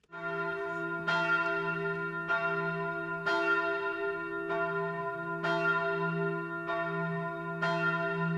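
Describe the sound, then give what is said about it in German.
The midday bell of an old pilgrimage church rings over a quiet, snow-covered village in Maria Alm on an Advent Sunday. It strikes a steady series of clear, even peals about once per second, each leaving a sustained ringing hum. “Die Mittagsglocke der alten Wallfahrtskirche klingt über den stillen Ort.”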